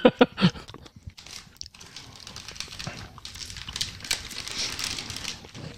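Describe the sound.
Crunching and chewing on an apple-flavoured fruit candy: a few sharp, loud crunches at the start, followed by softer, irregular crunchy chewing noises that continue throughout.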